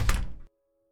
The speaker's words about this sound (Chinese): 然后门被重重的关上了。